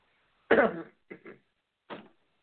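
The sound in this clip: Coughing from a man who says he is catching a cold with chills and a runny nose: one strong cough, two lighter coughs close together, then a final single cough.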